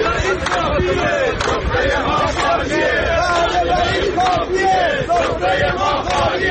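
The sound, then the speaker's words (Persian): Telecom company retirees rallying in protest in Ahvaz, a loud mass of voices shouting and chanting in unison, with overlapping calls and babble sustained at full strength throughout. “و صدای بازنشستگان شرکت مخابرات در اهواز.”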